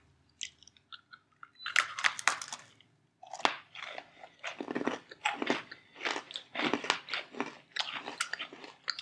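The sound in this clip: Hazelnut Oreo cookies are bitten and chewed with loud, crisp crunches, many in an uneven rhythm after a few faint opening clicks.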